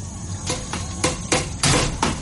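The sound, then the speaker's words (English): Several heavy hammer blows strike a machine, each a sharp metallic bang ringing briefly, spaced unevenly and growing louder toward the end, with no voices between them. “Give me that hammer!”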